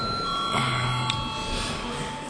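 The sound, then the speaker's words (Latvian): Bell rung to call a vote in a parliamentary session: a steady, sustained ringing tone with a bright metallic edge that holds for the whole stretch, with no clear pauses. “Lūdzu zvanu.”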